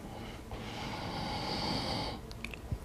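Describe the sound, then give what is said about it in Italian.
One long, soft, airy breath taken during a guided breathing exercise, a faint hiss that swells and fades over about two seconds with nothing else around it. “Sempre per 10 volte, 3. Inspiro, espiro”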